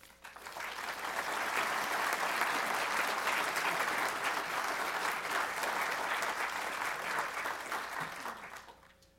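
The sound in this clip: An audience applauds to welcome a speaker at a historical society lecture on Civil War medicine: dense, steady clapping that swells in quickly, holds evenly for several seconds, then tapers away at the end.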